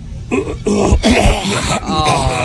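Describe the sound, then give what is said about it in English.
A man clears his throat in a few loud, rough, voiced bursts that run close together and end with a longer rasping stretch. “Clearing his throat.”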